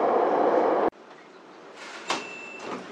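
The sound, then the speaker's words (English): A Beijing subway train rumbles loudly as it approaches Fengtai Railway Station. The noise drops suddenly to a quieter, steady hum, and a brief high beep sounds near the end. “The next station is 丰台 Railway Station. Please get ready for your arrival.”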